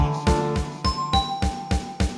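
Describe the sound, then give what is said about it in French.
A doorbell rings as the postman calls at the door: a quick series of bright, repeated chimes at a steady, even rhythm, with no talking. “Maman, maman, le facteur a sonné.”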